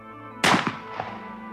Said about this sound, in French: Il tire un coup de fusil, à bout portant.